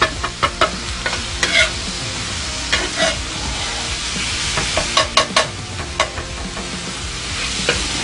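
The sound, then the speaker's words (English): Rapid repeated chopping of cheesesteak meat as it fries, many quick sharp knocks in uneven bursts over a constant crackling sizzle. “And that's what you want to hear. You want to hear that chop, chop, chop, chop, chop, chop, chop.”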